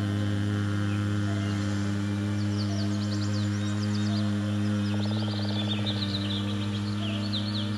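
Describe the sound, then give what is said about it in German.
Birds singing at dusk: faint, quick high chirps and twitters over a steady low hum, with no voices. “Und während die Vögel den Tag verabschieden und die Nacht willkommen heißen,”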